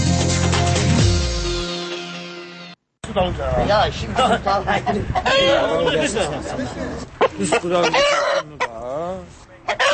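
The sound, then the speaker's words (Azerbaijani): Roosters cluck and crow at a Novruz holiday rooster fight in a village near Baku, with a crowd chattering and talking loudly over and around the birds. “Bakı kəndlərində Novruz kəndliklərinin əyləncələrindən olan xoruz, iç döyüşdürməsi mərasimləri hələ də qalır.”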